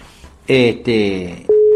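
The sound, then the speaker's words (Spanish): A telephone line tone while a call is placed: two louder harmonic bursts are followed by a steady, single-pitched tone that holds to the end. “Nos va a atender de Radio Caster, lo estamos llamando al amigo, para salir al aire”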